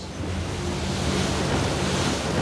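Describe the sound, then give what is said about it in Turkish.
Strong sea waves and currents churn near a dangerous exposed sandbar, a steady, loud wash of surf with wind buffeting throughout. “Birdenbire kendimizi güçlü dalgalar ve akıntılar arasında bulacağız.”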